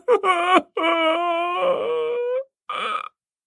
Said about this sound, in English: suddenly from his breast came the most piteous, heart-wrecking sob I had ever heard.